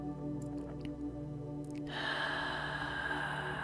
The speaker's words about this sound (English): Let's take a deep inhale as we begin to close our practice.